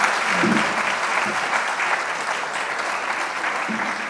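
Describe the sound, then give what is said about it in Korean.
Audience applause at a public event in a city hall, welcoming four panel participants; steady, dense clapping that holds evenly through the whole clip. “이렇게 네 분이 참여하시는데 여러분 박수 한번 해주시기 바랍니다.”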